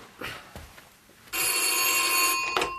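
A telephone rings once, a loud, bright ring lasting about a second that starts after a quiet stretch and then cuts off sharply.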